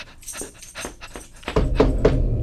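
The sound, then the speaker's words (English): A new puppy whimpers in a string of short, thin, high cries with brief pauses between them. Partway through, a louder, broad background noise rises and continues under the later cries. “This is my new puppy.”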